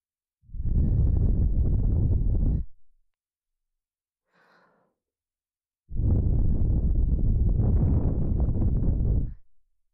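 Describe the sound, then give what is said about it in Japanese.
Breath is blown close into the ear, starting with the right ear, as two long, soft, breathy whooshes of a few seconds each, separated by a pause with a faint, brief sound. “リラックスできるようにお耳に息を吹きかけてみましょう。まずは右から。”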